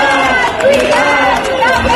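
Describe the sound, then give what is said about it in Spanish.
A crowd protests during an education strike at Plaza de Sant Jaume in Barcelona, Catalonia, with loud, dense massed voices that sound like chanting. “Esto en un día de huelga en el sector educativo en Cataluña, con protestas, por ejemplo, en Barcelona.”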